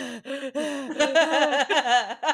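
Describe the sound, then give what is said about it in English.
A voice imitates loud, nervous breathing with a string of short, voiced, gasping huffs in an uneven rhythm, each breath quick and strained. “Harry really needs to learn to control his breathing, because every time he's under this... Cloak of Invisibility, people stare right where he is. He must be over there going,”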